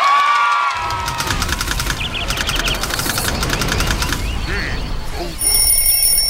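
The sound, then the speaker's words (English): An alarm clock rings with a rapid, steady, bell-like trill for a couple of seconds, sounding over a loud, dense wash of other background noise. “That's my alarm clock! Oh, 我的闹钟响了。”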